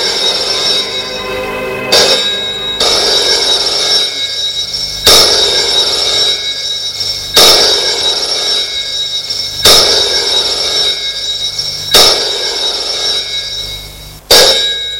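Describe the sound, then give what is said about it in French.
A telephone rings, with six sharp, evenly spaced bursts about every two and a half seconds over a steady, bright electronic tone. “Le lendemain matin, Charles reçoit un appel téléphonique.”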